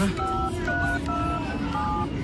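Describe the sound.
Telephone keypad tones as a call to a hospital for an ambulance is dialed, a series of short paired beeps in an uneven rhythm over a constant dense background murmur.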